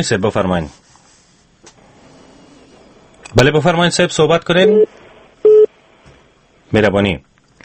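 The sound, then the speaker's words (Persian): A phone call to a call-in program is disconnected, and a short, flat electronic tone sounds between loud bursts of a man's speech, with talking before and after it. “تماس از اینا قطع شد.”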